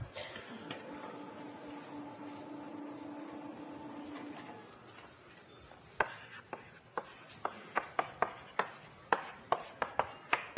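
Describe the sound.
Writing on a board during a maths lecture: after a quieter stretch with a faint steady hum, many short, sharp strokes and taps follow in an irregular rhythm.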